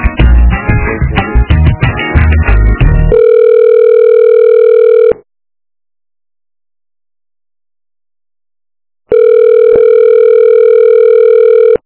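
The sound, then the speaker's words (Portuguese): Telephone tone on an office extension line: a short burst of music, then a steady electronic tone in two long beeps separated by a silent gap. “Educação, voltou a ligação, né? Aham. O ramal tá ocupado”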